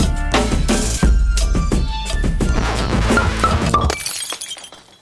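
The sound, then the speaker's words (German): A smashing, shattering sound effect: several seconds of dense, noisy crashing clatter, then a bright splintering burst that fades away at the end. “Schon alles zerschlagen, bevor es überhaupt angefangen hat.”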